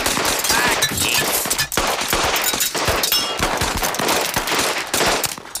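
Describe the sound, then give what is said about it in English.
Derringer pistol shots crack out as a loud, rapid barrage of many sharp bangs in quick succession, dense and almost continuous like a fusillade. “those derringer bullets are weak.”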